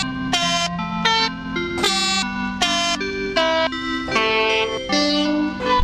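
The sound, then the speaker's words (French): A melody built from sampled train horns of different pitches, cut and reassembled so that each horn blast becomes a note. Loud, rich tones follow one another in a steady stream with little pause. “Mais il est joué avec quoi Eh ben, c'est des sifflets de locomotive.”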